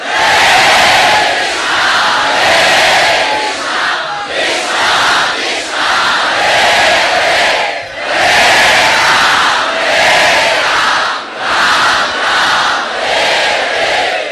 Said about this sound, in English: But then the kirtan came closer. It was deafening. The sound of millions of people crying out the Maha Mantra.